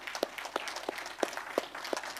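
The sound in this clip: Faint applause from a church audience, scattered claps popping irregularly above a soft background wash.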